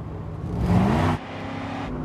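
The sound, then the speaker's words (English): A car accelerates hard through a red light in heavy traffic, its engine swelling to a loud roar for about half a second, then cutting off sharply and leaving a lower, steady hum. “He accelerates through a red light, and his tail can't follow in the heavy traffic.”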